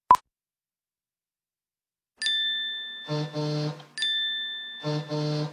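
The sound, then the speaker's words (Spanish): Phone message notification sounds: a single short click, then two identical alert sequences after a pause. Each is a bright sustained chime followed by quick pairs of plopping tones, with no talk. “¿Qué es todo esto? ¿Es en serio? ¿Quién me manda tantos mensajes? Ok, tengo que chequear esto.”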